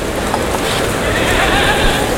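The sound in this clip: Hooves of a picador's horse clopping as it leaves the bullring at a bullfight, loud and continuous, with a whinny among the steps.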